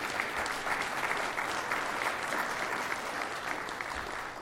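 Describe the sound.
Audience applause welcoming panelists at an economics panel event: a dense, steady wash of many hands clapping, sustained and even throughout with no voices above it.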